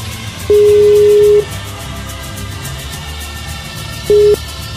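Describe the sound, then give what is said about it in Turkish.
Ringing tone of an outgoing telephone call: a steady mid-pitched beep of about a second, a pause, then a second shorter beep, over a low background hum. “Şimdi İngi'ni bir hemen arayalım bakalım.”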